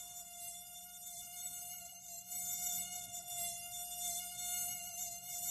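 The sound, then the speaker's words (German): Mosquito buzzing: a thin, high, steady whine that holds one pitch with a rich buzzy edge. It is faint and alone, and its loudness wavers slightly throughout. “Oh, furchtbarstes Geräusch der Welt. Mücken, ne?”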